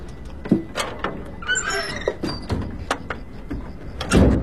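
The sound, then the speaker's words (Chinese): A door sliding shut with a sharp high squeal partway through, set among a few dull knocks and clunks, fairly loud with no voices. “门咋关上了呢？”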